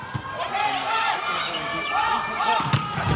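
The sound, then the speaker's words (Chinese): Volleyball serve by the Chinese team: a few dull ball thumps over a constant crowd roar and voices, with the hits only faintly poking above the noise. “中国队来发球”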